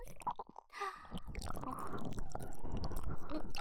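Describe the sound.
Chewing and biting of a strawberry-flavoured snack, a soft crunch and squish that starts in short bites and then settles into steady, continuous munching.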